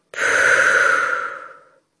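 A single long, deep human breath, steady and fairly loud, that fades out after under two seconds, with no talk around it.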